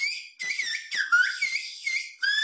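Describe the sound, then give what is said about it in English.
Whistled Turkish, a whistled language, carries a spoken-style request for a kilogram of tomatoes. Several clear, high whistled phrases glide up and down in pitch and are separated by brief gaps. “In Turkish, the meaning is, please 1 kilogram of tomatoes. Sadly, the number of whistled Turkish speakers is dwindling.”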